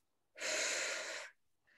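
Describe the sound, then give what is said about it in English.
A deep breath drawn in through the nose during a relaxation exercise: one steady, fairly loud breathy hiss lasting about a second, alone, then fading into quiet. “Breathe in through your nose.”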